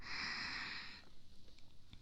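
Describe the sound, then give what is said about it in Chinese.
Soft, close breathing of a person resting: one long airy breath at the start, then fainter, uneven little breath sounds trailing off quietly. “听着我的呼吸声，好好的休息一下。”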